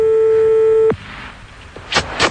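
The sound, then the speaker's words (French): Telephone tones as a number is called: a steady, even tone holds for about a second and cuts off abruptly, then after a quiet gap two short, bright bursts follow. “fais le numéro tout de suite, on va voir ce qu'il donne.”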